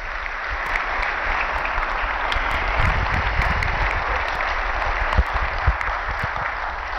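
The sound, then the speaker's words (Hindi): Sustained audience applause at a public address by a government leader, with dense, even clapping throughout and no break. “तालियों की गड़गड़ाहट रुकनी नहीं चाहिए।”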